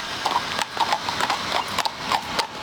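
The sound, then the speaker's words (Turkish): Police patrol horses brought from Hungary and specially trained clip-clop on a mounted patrol at Ankara Castle. Many sharp, irregular hoof strikes ring out over a steady background hiss. “Görev yapan atlar Macaristan'dan getirildi. Özel eğitimlerden geçirildi.”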